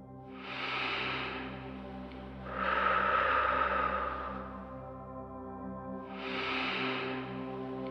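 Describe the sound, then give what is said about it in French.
Three slow, deep breaths taken at the start of a guided meditation, each a soft airy rush lasting a couple of seconds, over a quiet, steady meditative music drone. “prenez le temps de trois grandes respirations amples et profondes.”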